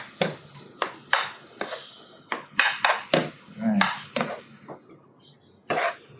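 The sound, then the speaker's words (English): Metal utensil scraping and clinking in a pan while scrambling real eggs with Gouda cheese: many sharp, irregular clicks and taps, some louder than others, with a softer sizzle or scrape between them. “Them real eggs. Scrambling. Mm-hmm. Put a little. Now we got Gouda cheese we're going to use in this thing today. Put a little cheese in these eggs.”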